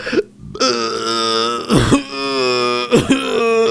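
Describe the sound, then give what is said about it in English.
A loud, long, deep voiced burp with a throaty, gurgling tone, broken by two harsh coughs as some of it catches in the throat. No other voices are heard. “That was a burp and a cough. Some of the burp juice got in my lungs.”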